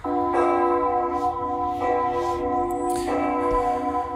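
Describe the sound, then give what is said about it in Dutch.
Church tower bells of the Dom Tower in Utrecht ring out in a few heavy strikes. Each strike is followed by a long, sustained metallic hum that stays loud and full throughout. “Dit zijn voor de kenner de klokken van de Domtoren.”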